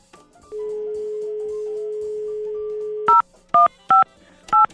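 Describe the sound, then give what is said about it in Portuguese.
Telephone keypad dialing: a long, steady tone holds for a few seconds, then gives way to several short, sharp dialing beeps in quick succession, clear and loud with no talking. “Deixa eu ligar aqui pra mais um, deixa eu ligar pra mais um,”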